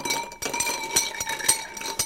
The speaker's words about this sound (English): Would you mind terribly if I add a tiny bit of Angostura bitters? Is there alcohol in it? There's a small amount, but I'm adding a drop. Tiny. A drop. It's so minuscule, you won't notice it. So we're going to give that a stir.